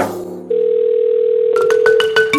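A steady telephone dial tone hums as a call is placed in a drama, then gives way to a quick run of short, bright dialing tones that beep in an irregular rhythm.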